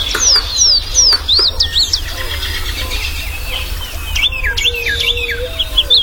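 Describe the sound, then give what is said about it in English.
Birds singing in early spring as they return and set up territories: bursts of bright, repeated descending whistled notes, with a second run of chirps later, over a steady low rumble. “the serenade of birds early in the spring when birds are first returning and begin setting up territories”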